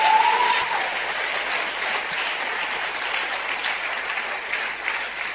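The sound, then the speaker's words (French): An audience at a worship service applauds to acclaim the Lord. The clapping is dense and steady and sustains at an even level for the whole clip, with no voices standing out. “Si tu as compris cette parole, tu vas acclamer le Seigneur, tu vas te tenir debout.”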